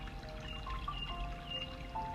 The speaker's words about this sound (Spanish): puedes ver que es una fuente de agua. Es una fuente de agua cristalina, no es honda,